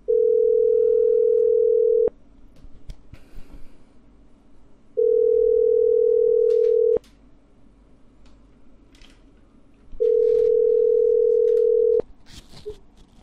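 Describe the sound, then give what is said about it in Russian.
A telephone ringback tone plays while a call is placed: three long, steady, mid-pitched tones of about two seconds each, separated by roughly three-second pauses, over faint background hiss. “И звоню еще раз.”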